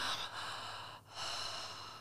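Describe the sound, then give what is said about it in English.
A deep belly breath drawn in through the mouth, then exhaled: a faint, airy inhale, a brief pause, and a long, breathy outward rush of air. “And so we breathe deep into our belly through our mouth, and then we bring it up to our heart, and then we exhale.”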